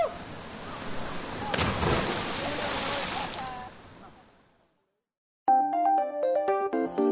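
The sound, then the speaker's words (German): Splash of a person jumping three metres from a rock into cold water in Colombia: one sharp burst over a continuous rushing wash of water that fades to silence before music begins. “Dann stürze ich mich die 3 Meter vom Felsen ins kalte Wasser.”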